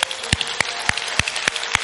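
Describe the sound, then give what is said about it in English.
An audience claps as an offering to the Lord during worship. Sharp claps fall in an even, steady rhythm over a faint hiss, with no voices heard. “Let's give the Lord a clap offering. He's so good.”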